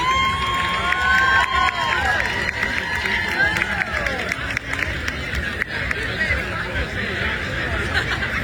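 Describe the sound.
A crowd cheers and shouts to welcome a Colombian athlete arriving at an event in Roberval. Lively whoops and excited calls ride over a constant background of chatter and babble throughout.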